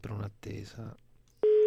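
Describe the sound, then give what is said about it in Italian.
A telephone rings after a short stretch of speech. A steady, loud, even-pitched ringing tone starts abruptly and holds unbroken to the end. “Quando squilla il telefono c'è sempre un'attesa,”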